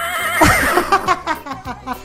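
A horse neighs in a loud, quavering whinny with a fluttering high pitch, followed by a few shorter breathy bursts. No voices are heard.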